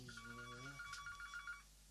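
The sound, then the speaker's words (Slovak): A telephone rings with a rapid, warbling electronic tone repeated in quick pulses, fairly faint and steady, then cutting off abruptly. “Teďka neviem, jestli to volá niekto do vysílania, nebo je to súkromný hovor.”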